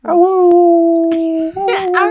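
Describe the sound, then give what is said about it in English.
Wolves howl together in a video game, a long, steady, tonal howl with strong overtones that holds for over a second, pauses briefly, then resumes with a louder, brighter, wavering cry. “Oh, it's Saria with him. Howling together. Can she turn into a wolf?”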